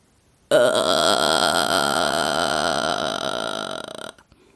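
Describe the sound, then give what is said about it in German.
Vocal fry singing technique, also called the creaky register: one sustained, low, rattling creak, like a long drawn-out burp, lasting about three and a half seconds, steady and loud, then tapering off before cutting out. “Die nächste Technik ist einer meiner Lieblingstechniken, der sogenannte Vocal Fry oder Schnarregister. Ich mache es euch einmal vor, dann wisst ihr, was ich meine.”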